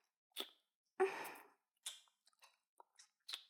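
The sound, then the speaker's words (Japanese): Wet licking and sucking on fingers, heard as a series of soft, moist mouth smacks and slurps, with one longer, fuller slurp near the start and quicker, fainter smacks after it. “指、舐めるよ。”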